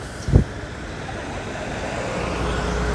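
A car passes in street traffic at a crossing, a short low thump near the start giving way to a steady, broad roadway roar that builds slightly toward the end.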